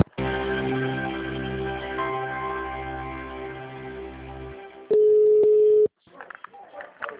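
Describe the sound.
Telephone line tones after a dropped call: a steady tone with a pulsing, broken layer underneath runs for several seconds. A loud, flat beep lasting about a second follows, then brief speech.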